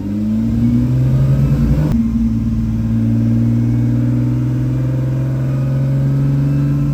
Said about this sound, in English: Driving the GTO is everything you'd think it would be. Raw, visceral, claustrophobic, and glorious.